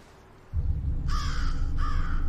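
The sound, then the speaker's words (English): A raven cawing from a telephone wire on a foggy day gives two harsh, rasping caws over a steady low rumble. “A raven sits on a telephone wire.”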